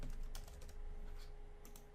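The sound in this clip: Quick, light keystrokes on a computer keyboard as a dashboard name is typed into a data application. The clicks come in short, irregular bursts and stay faint and alone.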